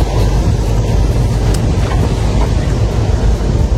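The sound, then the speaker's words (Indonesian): Sea ambience recorded aboard a ship on the Banda Sea in rough weather: a loud, constant rush of wind and water over a heavy low rumble, with no break throughout. “ASMR Laut Banda, silahkan crew.”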